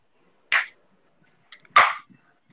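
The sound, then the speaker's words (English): A Coke can being opened: a sharp crack with a quick fizz, then a faint click and a second, louder hissing burst, each brief and set against near silence. “let me open the Coke can first.”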